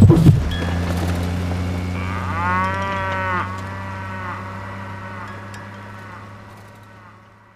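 A cow lets out one long, drawn-out lowing moo that wavers in pitch and then fades. A steady low drone runs beneath it the whole time.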